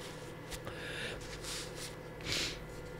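Wet sniffing from a runny nose: a few short, faint nasal sniffs and snorts over quiet background hiss.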